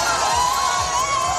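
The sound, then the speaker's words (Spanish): A crowd cheers in the streets of Brazil after an election victory, a continuous loud roar of shouts and whoops that holds steady throughout. “Este es el sonido de las calles del país después de la victoria de Luis Ignacio Lula da Silva”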